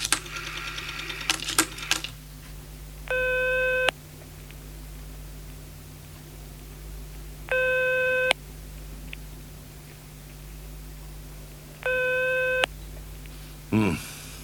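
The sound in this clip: An unanswered telephone call rings out in three evenly spaced, buzzy tones about four seconds apart over a faint steady hum and hiss, with rustling and clicks at the start and end.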